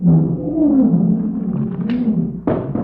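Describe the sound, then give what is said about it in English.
A lion roars in a cage: a low, growling, sustained roar that runs for nearly three seconds and ends with a sharper burst. “He's here in a cage disguised as a lion, but he can't fool me.”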